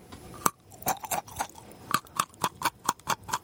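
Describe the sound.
Chewing during a food tasting: many crisp, crunchy bites in a fairly regular rhythm, clear and close with quiet gaps between them.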